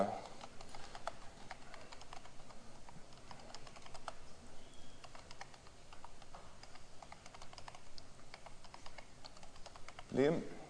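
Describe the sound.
Typing on a computer keyboard while entering text into a slide outline: a long run of many quick, soft, irregular key clicks, faint throughout.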